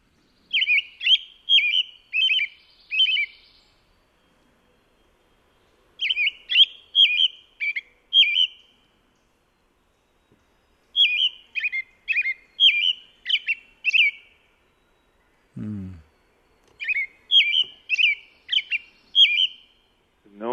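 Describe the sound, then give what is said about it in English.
A robin sings low caroled notes in four separate phrases, each a run of several clear, whistled notes with quiet pauses in between. “we've got the robin, I believe, is on track 12 of your CD. Should we play that? Yeah, track 12. Here are the nice low caroled notes.”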